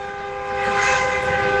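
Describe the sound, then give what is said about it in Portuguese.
Car horns honking together in a mass honking celebration, sustained overlapping horn tones blending into one loud chord that swells louder partway through. “É bora buzinar, vai, bora buzinar que tá gostoso, tá bonito de ver, vai!”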